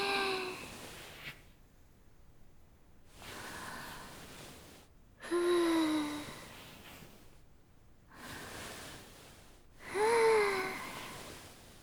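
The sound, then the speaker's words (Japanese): Slow breathing in and out during a guided breathing exercise, about five long, soft breaths separated by quiet pauses, some carrying a faint wheezy, whistling edge. “吸って、吐いて、吸って、吐いて。”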